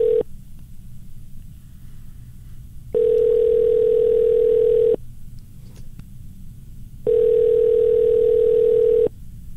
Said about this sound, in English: He keeps hanging up on us. Oh, we keep calling him back.